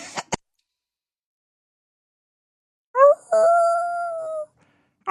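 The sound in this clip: A person imitates a howl with one voiced note that rises briefly, then settles into a sustained, fairly steady tone for about a second. Two tiny clicks come first, then silence.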